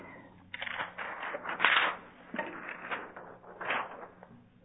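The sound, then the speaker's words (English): Figures are written by hand with a pen, giving faint, scratchy strokes in short, irregular bursts with brief pauses between them. “Let me just write these figures for you so that you can see how they run.”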